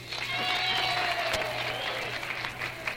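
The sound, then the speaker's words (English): Studio audience applause for a high school homecoming queen candidate on a dating-themed show: steady, dense clapping that holds at an even level for the whole stretch, with a low electrical hum underneath. “How about a hand from our audience?”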